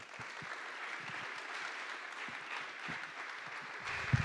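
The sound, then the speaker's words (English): Applause from an audience welcoming a speaker at a morning church service: faint, steady clapping that forms a continuous patter throughout, without voices. “Please, if you would, put your hands together and welcome Tom.”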